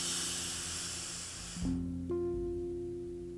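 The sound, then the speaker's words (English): Deep inhale during a guided breathing exercise: a soft, steady breathy hiss lasting over a second above faint sustained tones, then giving way to the low tones alone. “Again, inhale.”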